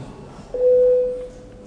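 A single sustained mid-pitched tone, the bell signal calling a parliamentary vote on a proposal, holds steady for about a second and then fades out, with no talk over it.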